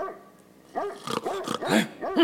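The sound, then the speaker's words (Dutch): A caged dog barks repeatedly. After a quiet opening, a run of several sharp, tonal barks and yips follows in quick, uneven succession, growing louder toward the end. “blafte weer om zijn familie te redden”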